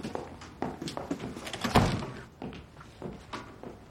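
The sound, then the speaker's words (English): Footsteps of a man stepping inside a house, a loose series of soft thuds and knocks with one heavier thump near the middle, fairly quiet overall, with no speech. “Harold steps inside.”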